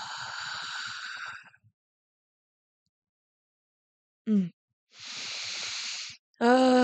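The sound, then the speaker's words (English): Slow, deep breaths out during a guided breathing exercise: two long breathy hisses separated by a silent pause, with brief voiced sounds in between and at the end. “Breathe in. And exhale nice and slow.”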